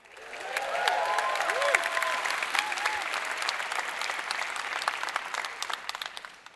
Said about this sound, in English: I'm going to tell you the number, and then I want you to cheer wildly at all campuses.